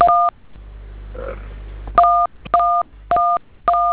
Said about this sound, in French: Composez le code, vous vérifiez, monsieur. On peut rester dans l'appel, je compose.